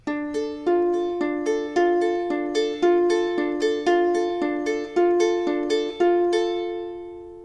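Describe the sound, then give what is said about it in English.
Guitar fingerpicking, the thumb plucking downward on the third and second strings alternating with a finger plucking the open first string upward: many bright, ringing notes in a steady, even rhythm, each decaying before the next. “The technique here is plucking downwards with your thumb on the third and second strings and alternating that with plucking upwards with either your index or middle finger on the open first string. Sounds a bit like this.”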